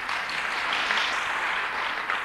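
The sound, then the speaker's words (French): An audience applauds during a talk, honoring women named Madeleine on their feast day. Steady, even clapping carries on for the whole stretch at moderate loudness, with no voices over it. “on vous applaudit parce que c'est votre fête.”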